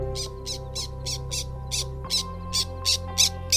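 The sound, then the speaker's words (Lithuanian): Black terns calling over wet meadows by a stream in Lithuania, many harsh short calls repeated at an even, quick rhythm over a steady low droning tone. “Ar girdite? Tai juodosios žuvėdros.”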